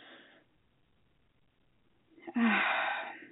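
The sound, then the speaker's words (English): A person takes a deep breath: one loud, airy rush of breath that swells and holds for about a second after a long, near-silent pause, with a fainter breathy sound at the very start. “And we can begin doing this by taking a deep breath.”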